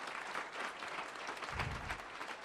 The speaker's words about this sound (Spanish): Vamos a dar un fuerte aplauso a cada uno de ustedes que está aquí.